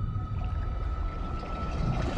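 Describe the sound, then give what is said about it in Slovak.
A whale calling in the ocean: a low, rumbling drone with a steady thin tone running above it, continuous and fairly loud throughout. “Neznie to ako nič, čo som kedy v živote počul. Aj tak dobre, možno má hlad. Neboj sa, veľryby nejedia klaunov, živia sa planktónom.”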